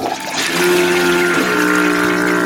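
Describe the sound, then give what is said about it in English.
A toilet flushes with a loud, rushing surge of water and a steady whining tone underneath, lasting a couple of seconds with no voices. “He's making me flush Father Tugger.”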